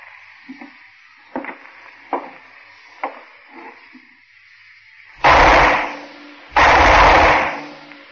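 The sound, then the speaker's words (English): Gunshots from a gun: a few fainter, sharp knocks come first, then two loud, drawn-out blasts ring out one after the other near the end. “The same gun I used on White.”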